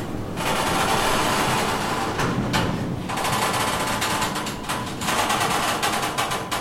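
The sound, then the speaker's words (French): A sliding storage rack in an art reserve is pulled out along its rail, giving a continuous rattling, rumbling metallic roll that lasts several seconds and swells slightly near the start and end. “Alors là, vous venez de tirer un rail.”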